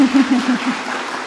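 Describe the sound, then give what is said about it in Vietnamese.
Clapping from a group after a recited teaching on doing good and avoiding evil: a dense, steady patter of hands, with a low voice-like tone beneath it in the first half. “Rồi, tự đọc mình đi. Hai, ba. Vỗ tay.”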